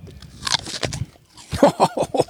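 Someone bites into a crisp, washed apple: a sharp crunch, then several more crunchy bursts of chewing at moderate loudness.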